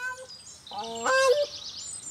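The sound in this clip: Aggressive brooding birds guarding their eggs give a short burst of harsh, nasal honking calls. The calls are brief and fairly faint, with a few thin, high tones before and after.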